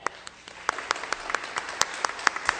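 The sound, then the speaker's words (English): Applause at a church gathering welcoming a pastor and his family, many crisp, separate claps in a loose, uneven patter that stays fairly light throughout. “That may be the most applause I'll get for a while.”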